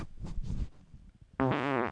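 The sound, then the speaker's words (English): A fart: a low, rumbling burst of noise lasting about half a second. After a short pause comes a brief, louder voiced sound. “Oh boy, I got a fart.”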